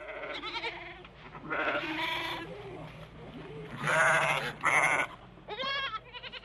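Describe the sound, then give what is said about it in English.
A herd of sheep or goats bleating in many overlapping, wavering, tremulous calls. The cries swell and fade in loudness one after another, with no talk. “No sooner had he spoken than an answering bleat shivered over the herd.”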